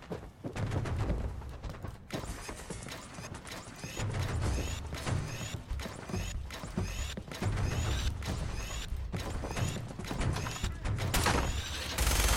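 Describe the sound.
Gunfire from a shooting video game rattles out as a dense stream of many sharp, rapid bursts with brief gaps, holding a steady, loud level throughout, with faint high chirping tones laced between the shots.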